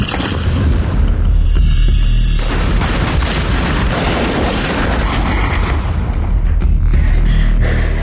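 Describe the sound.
Heavy gunfire near the Algiers Motel as the Army takes fire: a loud, dense, unbroken barrage of shots and booms that fills the whole stretch without any talk.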